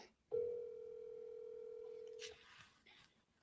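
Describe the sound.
An outgoing phone call rings out with one long, steady ringback tone lasting about two seconds, fairly faint, then quiet line noise.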